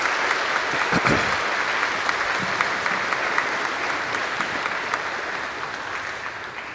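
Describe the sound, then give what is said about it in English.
A church audience applauds the graduating class of 2022 at a Sixth Sunday of Easter service. Many hands clap in a dense, steady burst that holds loud and eases only slightly toward the end. “Let's hear it for the class of 2022. Congratulations.”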